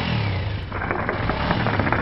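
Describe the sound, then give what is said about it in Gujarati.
A motorcycle engine revs loudly while stopped at a paan stall. It makes a continuous, loud, buzzing rumble with pulsing surges of revving throughout. “પાનના ગલ્લા આગળ રોકાઈ ગયો છે, પણ હંમેશની જેમ મોટરસાઇકલ નું એન્જિન હજી પણ એને એટલા જોરથી ચલાવ્યું છે”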